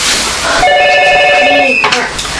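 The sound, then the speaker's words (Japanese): A telephone rings with layered steady electronic tones that last a little over a second, over a loud, noisy background. “あ、電話だ。”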